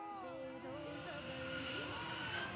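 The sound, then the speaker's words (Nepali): An airplane departing as a quiz show sound effect, a steady droning engine roar with whining tones, and a voice over it. “Iqra grammar school Ki team को लेकर जहाज एक मरतबा फिर सफर पर रवाना हुआ है।”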